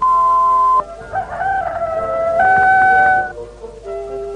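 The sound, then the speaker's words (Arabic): A rooster crows loudly in a long, wavering, harmonic call that lasts a few seconds, heard alone without any talk. “ولهذا أنا أصيح بأعلى ما يمكنني، وأنا لا أزال قادرا على الصياح.”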